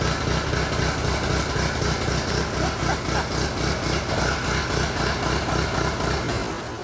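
A restored classic tractor engine, smoking heavily after long neglect, running at a steady throbbing idle. Its regular pulsing beat is loud and continuous and eases slightly at the very end.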